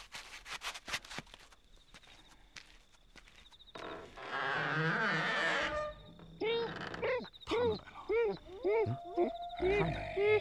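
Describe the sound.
A wolf vocalizes in a rough, rumbling growl, then a string of short whining yelps that bend up and down in pitch. People speak alongside the animal sounds.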